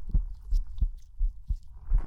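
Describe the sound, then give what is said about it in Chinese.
A heartbeat of a living creature thumps in a steady run of low, muffled beats, fairly faint, with no other sound around it. “也是会有心跳的，因为我是有生命。”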